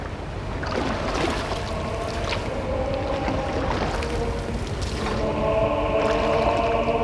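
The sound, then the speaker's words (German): Water washes steadily around a boat as it pushes off from shore, a continuous broad sloshing and rushing sound with no voices, growing slightly fuller in the second half. “Jetzt steigen sie ins Boot. Sie stoßen ab.”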